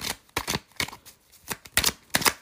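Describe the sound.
Tarot cards being shuffled: a run of quick, crisp riffling and slapping bursts in an uneven rhythm, fairly quiet, with short gaps between them and no talking.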